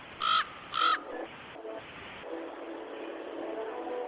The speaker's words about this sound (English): I have a crow.